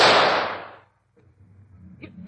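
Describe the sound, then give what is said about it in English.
A single loud gunshot cracks at the outset, its sharp report decaying over about a second into silence, followed by faint rustling and a couple of small knocks. “Stand back, Watson. I'm going to shoot.”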